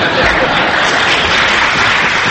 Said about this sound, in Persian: فقط یادتون باشه با این دست زدناتون کار دست من ندین.